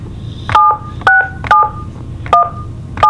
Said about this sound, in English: So let's dial in.